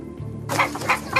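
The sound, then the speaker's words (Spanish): Chickens cluck in a courtroom: three short, bright clucks in quick succession, fairly loud against a low background murmur. “¿Quién metió unas gallinas? A la corte, por favor, sáquenlas.”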